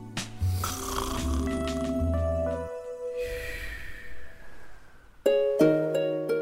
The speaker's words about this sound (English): And I'll have, like... a small snooze.